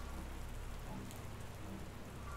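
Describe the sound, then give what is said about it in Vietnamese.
Steady rain falls in a dense, even hiss of drops, loud and unbroken throughout with no voices. “Nước mưa rơi xuống cả người khiến cho Hiếu run rẩy.”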